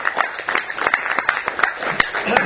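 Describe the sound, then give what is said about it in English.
Audience applause at a town community meeting in Port Hedland: dense, steady clapping from many hands that stays even for the whole stretch, with no voices above it. “So how about a round of applause?”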